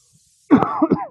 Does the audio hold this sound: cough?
yes

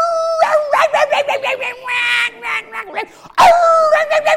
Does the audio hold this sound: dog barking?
yes

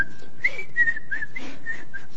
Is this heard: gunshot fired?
no

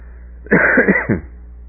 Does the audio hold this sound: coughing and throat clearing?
yes

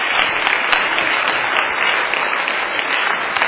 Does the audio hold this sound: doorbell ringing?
no

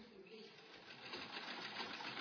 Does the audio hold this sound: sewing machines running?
yes

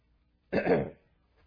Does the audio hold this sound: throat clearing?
yes

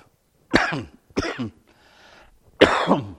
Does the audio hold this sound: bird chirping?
no

